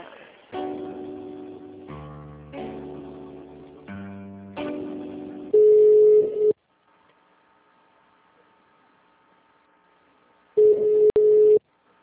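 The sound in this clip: Telephone line sounds as a call is transferred to the HR department: a run of stepped electronic tones, then two steady one-second beeps separated by near silence.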